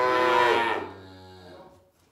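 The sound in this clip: A calf just unloaded from a wagon bawls for its mother in one long, loud, hoarse moo that gradually tapers off.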